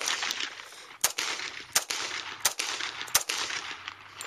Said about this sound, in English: This right here is my 45. That was the first round.